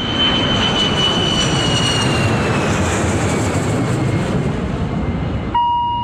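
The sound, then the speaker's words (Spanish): A Boeing airliner takes off with a loud, steady jet-engine roar. A high whine slowly falls in pitch above the broad rushing noise, and the roar cuts off abruptly just before the end. “Vamos a despegar con el Boeing 630 del S5 Radio Rivadavia.”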